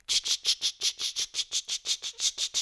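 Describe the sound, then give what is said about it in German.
Cicadas in fields of Apulia, caught in a field recording as rapid, high-pitched rasping pulses that repeat in an even, steady rhythm with no voices. “Recordings in den Feldern Apuliens sind auch zu hören. Diese Aufnahmen fokussieren sich auf den Klang der Zikade.”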